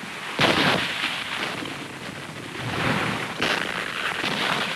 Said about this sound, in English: A shell explodes away from the troops.